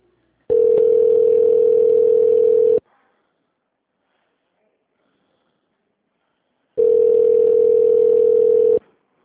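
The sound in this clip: Telephone line tone plays while a call is transferred at an HR office: two long, steady mid-pitched tones, each lasting a couple of seconds, separated by a long stretch of silence.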